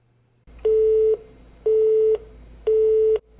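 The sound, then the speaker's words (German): Disconnected phone line tone: three evenly spaced, steady mid-pitched beeps, each about half a second long, sounding alone against a faint background hum. “Oh, jetzt habe ich den falschen Knopf gedrückt. Die Leitung wurde unterbrochen.”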